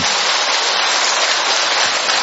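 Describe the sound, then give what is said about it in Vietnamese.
Steady applause from a church audience giving thanks, a dense, continuous clatter that holds at an even loudness for the whole stretch with no gaps. “Chúng ta tạ ơn Chúa một tràng pháo tay thưa anh chị em.”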